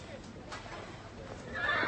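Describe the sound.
A horse, a mare, gives a short whinny near the end, a bright, high neigh that rises out of a low, murmuring background where voices talk softly beforehand.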